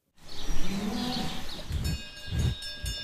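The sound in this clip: Dairy cows feeding in a barn on a 35-cow dairy farm near Chur, with a low, drawn-out bovine tone early on, then a few louder, muffled bursts of shuffling noise.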